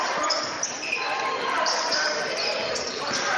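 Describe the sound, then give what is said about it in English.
A basketball being dribbled up the court during a game between the Eagles and the Cubs, its bounces faint and soft beneath a steady wash of crowd noise that fills the whole stretch. “Eagles bringing the ball up the court, leading this one 13-6 over the Cubs.”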